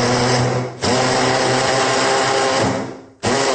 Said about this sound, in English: if you don't have a mini chopper like this, you can definitely do this by hand. You just put your cut up and washed celery in.